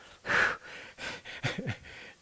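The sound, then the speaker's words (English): Voice imitating a runner panting after a sprint, a few quick, heavy breaths in and out, uneven in spacing and moderately loud with short pauses between them. “You know, have you ever seen a runner after a sprint? They go,”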